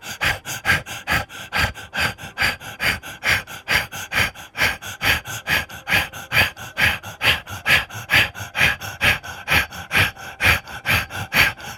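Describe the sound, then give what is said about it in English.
Rapid rhythmic breathing during a guided breathing exercise: many quick, evenly spaced breaths, each a short airy burst, follow one another at a steady fast pace with no talking. “Release. Again, rapid breath.”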